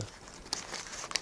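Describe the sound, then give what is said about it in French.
Two banknotes rustle inside a wallet, making faint, crisp crinkling with a few sharper papery snaps near the middle and end. “vous voyez, ça c'est le bruit de deux billets qui se... dans mon portefeuille, et j'ai toujours un peu d'argent dans mon portefeuille.”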